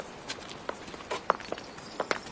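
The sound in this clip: Footsteps of people walking together, a few soft, light steps in an uneven rhythm with no talk.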